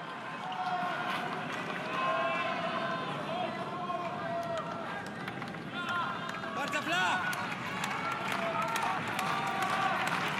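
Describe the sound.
Applause from the tennis crowd as Zverev converts a break point against Cobolli: steady, dense clapping continues throughout while a commentator talks over it.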